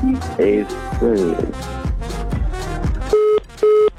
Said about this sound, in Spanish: ¡Se nos fue la llamada por ahí!